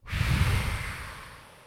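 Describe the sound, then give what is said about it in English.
A full, deep exhale through the mouth during a calming breathing exercise, a breathy rush of air that starts abruptly, holds steady, then slowly fades away, with no talking. “and then fully exhaling through my mouth.”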